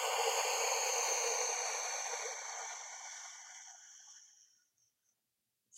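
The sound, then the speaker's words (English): A slow, steady exhale during a guided breathing exercise: a soft, airy rush of breath that gradually thins and fades to silence over several seconds. “Inhale for 4 seconds and hold. And exhale.”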